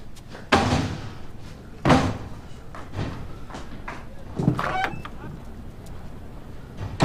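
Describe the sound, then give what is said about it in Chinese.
A door is shut and locked: a few sharp thumps and clacks spaced over several seconds, with quieter rattling and handling noise between them. “锁门去了。”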